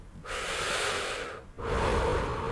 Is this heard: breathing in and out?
yes